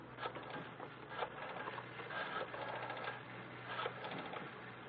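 A tape recorder machine runs with a steady mechanical whir and low hum, its level holding even throughout with slight rattling texture.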